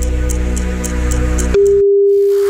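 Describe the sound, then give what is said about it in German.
A telephone call rings out: a single steady ringing tone starts abruptly after a stretch of rhythmic music and holds for about a second. “wir haben jetzt eine Nummer ausgelost und die rufen wir jetzt zurück”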